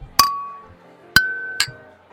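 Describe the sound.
Glasses clink in a toast while drinking: three bright, ringing chimes, the first alone and the last two close together, each leaving a lingering tone.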